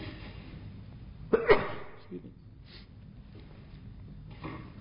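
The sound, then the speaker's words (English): A single sharp sneeze bursts out close to a microphone, followed by a faint sniff or two and quiet breathing. “learning how not to sneeze into the microphone.”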